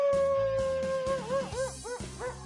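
A wolf howls quietly, holding a long, steady high tone that then breaks into wavering, bending yips, over a low, rhythmic, pulsing background.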